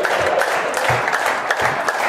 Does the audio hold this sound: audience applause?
yes